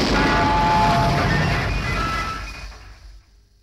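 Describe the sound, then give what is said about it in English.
A loud explosion sound effect for a radio set blowing up: a broad, roaring blast that holds steady for about two seconds, then fades away over the final second, with no voices. “Oh dear, the radio's exploded.”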